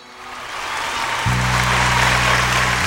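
Loud audience applause at a religious gathering, a dense, even wash of clapping that swells over the first second, with a low steady hum joining halfway through.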